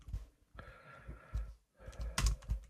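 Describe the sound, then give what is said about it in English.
Frantic typing on a computer keyboard, quick faint bursts of key clicks in irregular clusters with short pauses, over a soft sustained tone in the background. “As I frantically type something in.”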